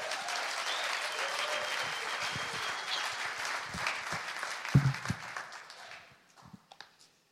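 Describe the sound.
Audience applause welcoming a speaker at a church meeting: dense, steady clapping for about five seconds that thins into scattered claps and then stops.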